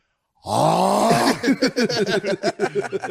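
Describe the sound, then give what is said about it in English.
A man's voice imitates loud snoring: a long, rasping, drawn-out snort, then a rapid series of choppy, gasping pulses that gradually weaken. “Goes nuts on the snores. Yeah. You can hear him from downstairs. You can hear a guy upstairs going,”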